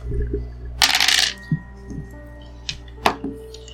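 Dice roll during a tabletop role-playing game, starting with a short, rattling burst and ending in a few scattered light clicks and taps as they settle.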